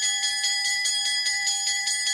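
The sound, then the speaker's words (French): A bell ringing in a steady, rapid train of even pulses, bright and sustained throughout, with nothing else heard. “La cloche a sonné”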